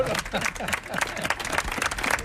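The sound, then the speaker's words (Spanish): An audience gives a round of applause at a live event in Almagro. Scattered claps rise and fall beneath a man speaking over them, and the clapping stays fairly soft and partly masked by his voice. “Vamos a dar un aplauso, ¿no? Vamos a dar un aplauso.”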